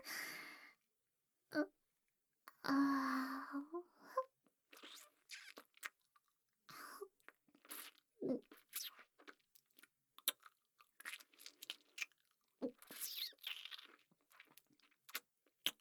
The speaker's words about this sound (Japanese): なんか絶妙に柔らか。噛めば噛むほど味が染み出てくる。